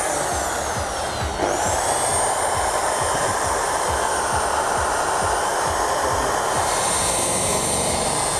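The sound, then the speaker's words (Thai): A polishing machine buffs back and forth in one direction with the pad tilted at 30 degrees, at speed setting two and a half. It gives a loud, continuous whirring drone that holds steady throughout. “ขัดย้อนไปย้อนมาครับเป็นทางเดียวนะครับ”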